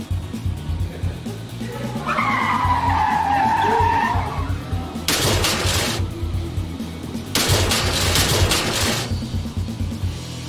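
A car drifts with a drawn-out high tire squeal, then two loud, harsh bursts of skidding, each lasting a couple of seconds, over a constant roar of engine noise.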